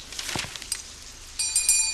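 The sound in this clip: A small bell rings with a bright, sustained metallic tone that begins abruptly near the end and continues to the close, preceded by faint rustling and soft movement noises.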